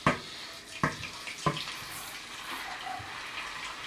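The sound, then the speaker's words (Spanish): Potatoes tipped into a hot, deep frying pan make three soft thumps in quick succession, followed by a faint, continuous sizzling hiss. “Echamos las patatas a la sartén.”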